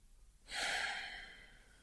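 Slow breath during a relaxation exercise: a faint intake followed by a long, soft, airy exhale that starts abruptly and fades gradually.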